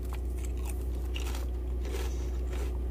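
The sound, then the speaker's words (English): Someone bites into and chews a beef-flavored Lay's potato chip, making a few crisp crunching bites over a steady low hum. “So, let's go ahead and get one of these chips out. I mean, it doesn't smell bad. It's just definitely meat. The smell of meat is on this, so... Beef flavored Lay's. Let's go ahead and give them a try.”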